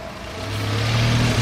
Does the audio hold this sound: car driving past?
yes